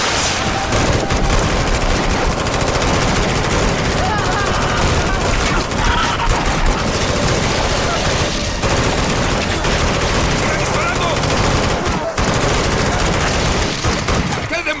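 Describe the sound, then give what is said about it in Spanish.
Machine-gun fire aimed at a creature: loud, dense, continuous bursts of shots that barely pause, with shouting voices mixed into the clatter. “¡Maldita cosa! ¡Sigue viva! ¡Ya le disparé 100 veces! ¡No muere!”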